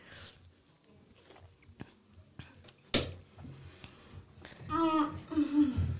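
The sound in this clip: Someone chewing a tomato, faint wet bites and smacks in a few irregular bursts, with voices and laughter-like sounds toward the end.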